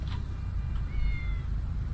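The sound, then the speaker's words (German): A cat meowing, with thin, faint high-pitched meows over a steady low rumbling background noise. “Katze. Ist eine Katze. Ja, ist eine Katze.”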